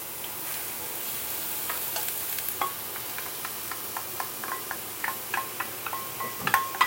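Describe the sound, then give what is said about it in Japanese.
Green onions stir-fried in salad oil in a heated pan give a faint, steady sizzle scattered with many small clicks and taps, which grow slightly louder toward the end. “サラダ油を引きましたのでねぎからですね温めて炒めていきます”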